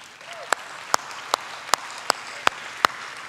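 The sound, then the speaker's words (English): Rhythmic clapping from a church audience honouring its cell group leaders: seven sharp, evenly spaced claps in unison over a faint background. “I want to give a big hand to all of our Kerasa leaders.”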